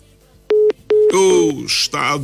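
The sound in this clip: Electronic telephone tones from a call to a radio listener that goes unanswered: a few short, steady beeps, followed by a voice.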